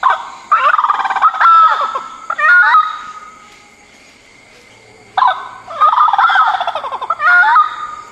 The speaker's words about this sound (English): It's pretty common in Darwin, where some call it the bush turkey. Rob from Canberra was first in with the official name, the orange-footed scrub fowl.